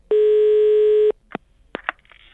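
Telephone ring tone as a call is placed, a single steady electronic tone lasting about a second and then cutting off, followed by a few short, sharp bursts of sound.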